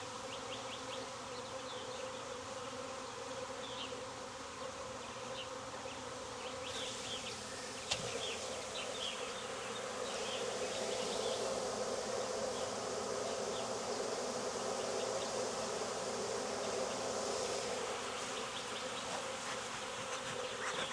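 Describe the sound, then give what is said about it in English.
Honeybees buzz steadily inside a hive box being rechecked for a missing queen, a dense, even drone that holds for the whole stretch with no talk over it. “I guess I gotta double check the box that I shook her out of. There's still some bees in here, but not many.”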